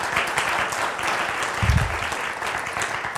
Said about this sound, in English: But without any further ado, yeah, give him a hand.